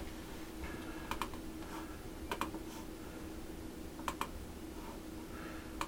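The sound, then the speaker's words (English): An email address being typed on a computer keyboard produces sparse, crisp key clicks, mostly in quick pairs with gaps of a second or more, over a steady low hum. “Now I want to use these email links, so I'm going to type in my email,”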